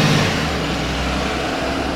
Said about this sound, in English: There's the bus. I have this silly, dumb habit of waving at the bus.